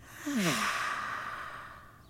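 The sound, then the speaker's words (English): A slow breath is let out through the mouth during a calming breathing exercise. It opens with a faint voiced sigh that slides down in pitch and settles into a long, soft, breathy exhale that gradually fades. “Breathe slowly in through our noses and breathe slowly out through our mouths.”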